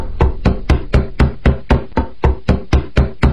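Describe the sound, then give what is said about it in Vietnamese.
Knocking on a room door: many steady, evenly spaced knocks in a regular rhythm, each sharp and solid, heard alone. “bỗng nghe thấy tiếng gõ cửa phòng cô”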